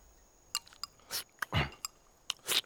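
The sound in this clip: Soft chewing and crunching of food, a few short crisp clicks and moist bites scattered across a quiet moment, with faint breathy mouth noise.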